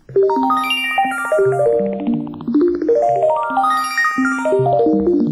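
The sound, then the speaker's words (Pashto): An iPhone 15 ringtone plays a loud, bright, chiming melody of quick marimba-like notes rising and falling. The phrase is heard twice, with no voices. “دا د آیفون 15 زنګ دی، دا هغه تلیفون چې په امریکا کې لانجه پیدا کړې ده.”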